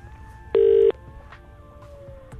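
Telephone tone as a call rings through to voicemail: one short, loud, steady beep about a third of a second long over a faint sustained hum, with another beep just starting at the end.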